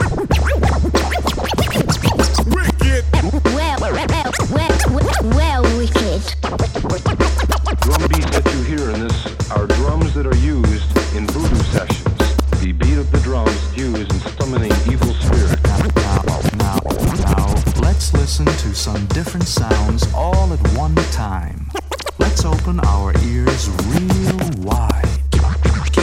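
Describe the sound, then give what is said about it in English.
Record scratching on a turntable, loud and rhythmic, cuts back and forth continuously over a heavy, steady drum beat with a booming low pulse throughout. “Sounds like it's scratching.”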